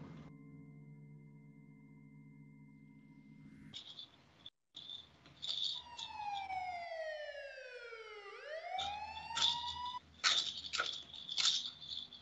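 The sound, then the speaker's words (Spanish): Police sirens wail very close, their loud tones sweeping down and up in overlapping glides over a steady low hum, with sharp high chirping bursts around them. “Las sirenas de policía han sonado muy, muy cerca como si ya estuvieran esperando.”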